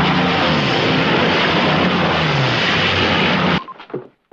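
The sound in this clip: Loud roaring engine drone of a Mosquito military airplane flying low through a fjord, a steady broad rush that cuts off abruptly and leaves a few faint, fading rumbles.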